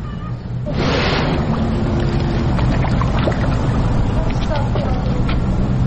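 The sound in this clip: A hippopotamus dives back under the water of a zoo pool: a sudden loud rush of splashing water, then a steady, churning surge of water noise that stays loud to the end.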